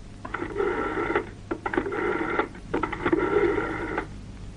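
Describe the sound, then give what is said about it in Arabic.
Telephone tones as a call is placed to a police officer in a drama scene: three buzzy electronic bursts of about a second each, separated by short gaps, harsh and steady in pitch, with no speech. “يلا اضرب له تليفون.”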